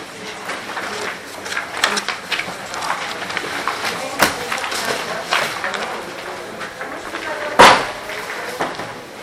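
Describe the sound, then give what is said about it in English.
A door is shut with one sharp knock near the end, during a public meeting with property managers of a harbors division. Voices murmur and shuffling continues throughout. “Somebody mind shutting the door?”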